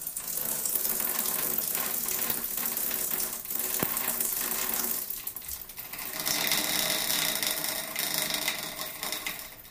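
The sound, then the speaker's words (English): Water pipes releasing pressure as a shower is turned on make a continuous, loud, buzzing rattle with a sputtering, ratchet-like texture. A brighter hiss joins in during the second half. “And then the sound of the pressure release in the pipes once the shower is turned on.”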